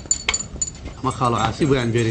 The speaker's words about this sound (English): Stirring his tea at a restaurant in the center of town